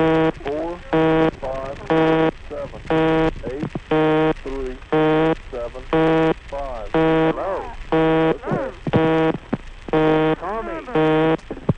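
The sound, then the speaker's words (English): A telephone busy signal on a line used for a conference call: many evenly spaced, loud buzzing tones in a steady rhythm, with several voices chattering in the gaps between them. “someone on this conference told me about another conference which had been going for many years on a busy signal.”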